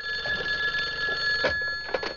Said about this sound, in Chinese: 哎呀，这说曹操，曹操到呀，王总来电话了